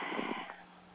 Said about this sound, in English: Give yourself a nice breath in.